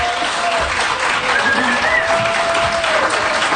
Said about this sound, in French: Je vous rappelle que tout un matin est diffusé en direct du parc La Fontaine. Il y a des gens qui sont avec nous. On les entend.